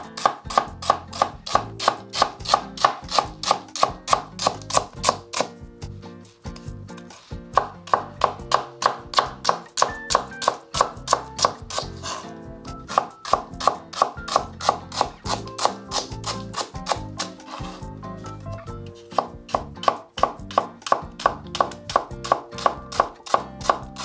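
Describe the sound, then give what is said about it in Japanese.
A knife thinly slices myoga ginger on a cutting board in many quick, evenly spaced crisp taps, keeping a steady rhythm broken only by two short pauses. “みょうがも縦半分に切ってから、えー、薄く薄切りにします輪切りみたいな薄切りですね”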